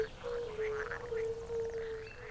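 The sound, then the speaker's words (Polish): Marsh frogs call in a continuous chorus: a steady droning tone with chattering, quack-like notes layered over it, moderately loud and unbroken from start to finish. “Może właśnie jedna z naszych żab krajowych nazywa się żabą śmieszką.”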